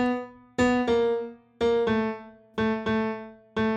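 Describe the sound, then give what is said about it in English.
An electric guitar line steps down chromatically, with several bright plucked notes arriving in pairs and short groups, each ringing and fading, played solo without any accompaniment. “And the other guitar is moving down chromatically, and it sounds like this.”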